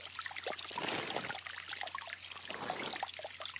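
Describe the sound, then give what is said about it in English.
Water bubbles and trickles steadily from a garden fountain into its moonlit pool in a rose garden at midnight, a continuous, fairly even splashing wash with slight swells in intensity. “The moon's reflected on the pool of a fountain, and the water bubbling from that fountain is the only sound you hear.”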